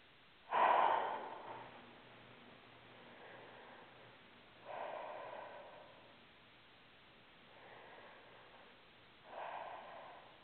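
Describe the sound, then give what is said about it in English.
Slow, deep breaths taken during a guided relaxation exercise, each a soft, airy rush of breath with quiet gaps between them. The first breath is the strongest, and no one speaks. “Take three nice deep breaths.”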